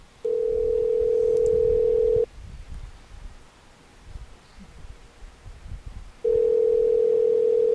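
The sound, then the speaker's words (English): Telephone dial tone heard before a call is placed: a steady, single-pitched hum in two stretches, separated by a quieter gap of faint handling and rustling noise. “I'm going to call this number”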